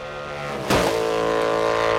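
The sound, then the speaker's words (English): Engine roar of a Munro Special motorcycle tearing along an empty highway behind a plastic screen. A sustained harmonic drone is punctuated by a sudden loud burst, after which it holds at full volume. “Bert's tearing along a stretch of empty highway on the Munro Special.”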